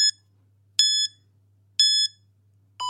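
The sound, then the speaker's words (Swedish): Beeping from a workout interval timer: four short, high, clear electronic beeps spaced about a second apart, the last one sounding slightly lower and different in tone, with near silence in between. “Och sen när det är ner på 30 så piper det igen. Och sen fortsätter det så. Mm. Workout timer.”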